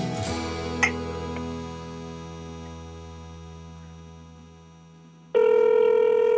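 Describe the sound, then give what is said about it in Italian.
A telephone rings with an incoming call from a New York real estate agent about an apartment. Sustained electronic tones slowly fade over several seconds, then a loud, steady ringing tone cuts in near the end. “ci ha appena chiamato quello del real estate di New York.”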